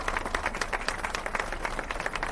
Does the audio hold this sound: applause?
yes